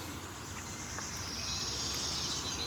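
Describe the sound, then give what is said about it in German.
A wood warbler sings in a forest, a faint, high, shimmering trill that enters partway through over a steady hiss of background noise. “Aber ihr könnt schön den Waldlaubsänger inhalieren.”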